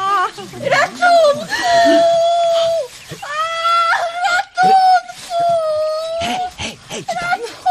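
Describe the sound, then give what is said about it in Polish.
A person screaming in a drama: loud, shrill, drawn-out cries that waver in pitch, broken by short gasps and sobbing sounds. “Kto to tam krzyczał?”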